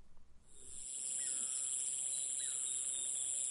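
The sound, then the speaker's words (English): Insects drone through the night, a faint, steady, high-pitched chorus that swells in after about a second and holds unbroken. “Insects fill the night with a low, continuous sound as two male stag beetles prepare to fight.”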